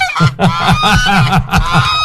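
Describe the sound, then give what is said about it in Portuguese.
Geese honk in a rapid, overlapping series of loud, nasal, buzzy calls, many honks in quick succession with a harsh, brassy tone. “Acho que isso aqui é uns gansos. Não é pato, mas é ganso.”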